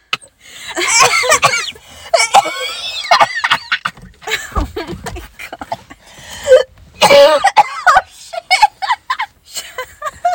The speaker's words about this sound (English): She's choking every episode. Breathe, my man.